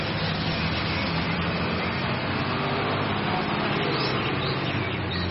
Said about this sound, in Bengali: দূরে একটা লরির শব্দ হতেই তুলসী এগিয়ে গেল, বাঁকের মুখে লরিটা দেখা যেতেই তুলসী গাছের ডাল নাড়তে লাগল।